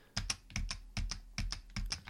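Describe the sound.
A computer keyboard key combination of Ctrl, Shift and Left arrow is pressed five times, making five quiet pairs of sharp clicks at a steady, even rhythm with short silences between them.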